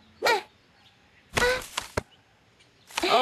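Bottles knocked over by a thrown ball in a bottle-toss game: a burst of clattering with a couple of sharp knocks, set between short separate bursts of sound in otherwise quiet surroundings.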